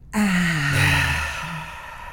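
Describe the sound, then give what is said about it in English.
A single deep breath is taken during a relaxation exercise, lasting about two seconds. It is loud and breathy with a faint voiced tone, swelling quickly and then tapering off. “So, so we'll just take a deep breath in.”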